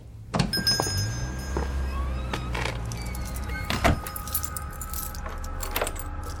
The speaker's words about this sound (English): I am currently exiting the building and am locking up.